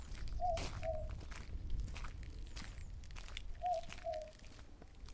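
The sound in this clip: Faint footsteps walking into a dark inn, a few soft, irregular steps over a quiet, rustling background, with no talk.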